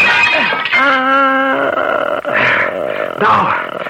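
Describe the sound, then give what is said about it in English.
Smashing of a mirror in a dramatized scene, with strained, groaning vocal tones giving way to two harsh, bright crashes of breaking glass near the end. “I'm going to smash that mirror.”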